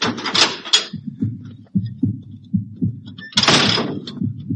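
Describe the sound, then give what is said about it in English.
A bulkhead door opens with two loud hissing bursts, one at the start and one near the end, over a steady low throbbing pulse. “I'll open the bulkhead.”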